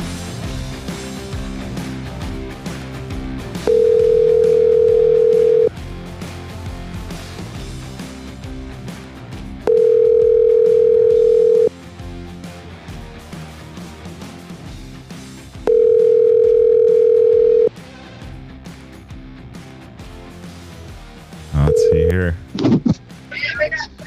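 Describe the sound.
A telephone tone while placing a phone call: three steady, sustained tones of about two seconds each, spaced roughly six seconds apart over continuous background sound, ending with a brief, shorter tone and a few clicks.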